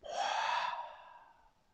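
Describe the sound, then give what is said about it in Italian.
A slow, deep breath during a guided relaxation exercise: one soft, airy breath that swells quickly, holds, then fades gradually into quiet. “Inspirando è come se ci gonfiassimo come un piccolo palloncino ed espirando.”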